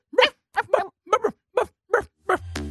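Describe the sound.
A sleeping dog whimpers and gives soft, muffled woofs while dreaming: six short bursts in an uneven rhythm, a few of them doubled.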